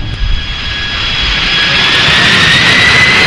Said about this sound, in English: tower, runway 31 right, wind 90.5. Clear for takeoff. Clear for takeoff.